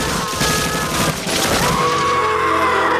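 Gunfire rips out in a rapid fusillade as bullets are fired at a girl on a bridge from both sides. Dense, fast bursts fill the first half, then the shooting breaks off into a rougher, lower rumble.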